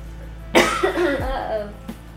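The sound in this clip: A single harsh cough from a person feeling unwell: a sharp, sudden burst that trails into a rough, voiced rasp, with a steady low hum running underneath.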